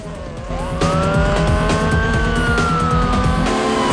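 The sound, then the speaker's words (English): A car engine roars as it accelerates hard away from pursuing police, its loud steady drone joined by the wavering tone of a police siren. “Dom gets into the passenger seat, and Brian accelerates away from the police.”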